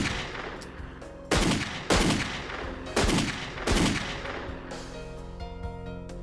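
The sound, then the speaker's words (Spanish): Four loud gunshots fired during a tense armed confrontation, sharp cracks at uneven intervals, each trailing off in a brief ringing decay. “¿por qué les disparaste?”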